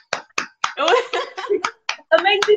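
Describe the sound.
A few sharp, isolated hand claps cut in between and under people talking, scattered unevenly rather than building into a sustained round of applause.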